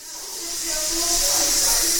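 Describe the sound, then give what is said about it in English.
A pressure cooker hisses in a kitchen, a bright, sustained steam jet that swells in loudness over the first second and then holds steady, with a faint wavering whistle-like tone beneath. “The hiss of a pressure cooker is on the Greatest Hits of the Kitchen soundtrack for anyone who spent part of their childhood in Brazil, Gagliardi and his wife Bruna tell me”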